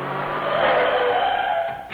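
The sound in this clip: A car driving and skidding to a stop, heard as a loud, sustained rushing tyre noise with a squealing edge that eases off toward the end, closing with a short final burst.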